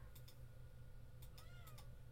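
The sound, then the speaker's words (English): A house cat gives a soft meow, faint over a low steady hum, with a few brief ticking clicks scattered around it. “Ignore the cat.”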